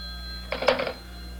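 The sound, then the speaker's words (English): A telephone rings on a private line: one short burst of bright, buzzy ringing over a steady low hum, with no talk. “Oh, let one of the servants answer, dear. Well, it's ringing on the private wire.”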